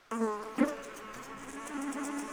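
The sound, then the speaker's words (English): Mosquitoes buzz over swampy land, a steady, thin, high-pitched whine that starts abruptly and keeps going throughout, with one brief louder burst near the start. “The land was swampy. Mosquitoes made life miserable.”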